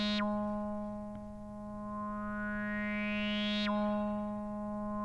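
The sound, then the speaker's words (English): Homemade synthesizer music: a quiet, buzzy sustained tone rich in harmonics, broken by two quick downward swoops and a slow gliding line that rises through the middle. “Oh, synth.”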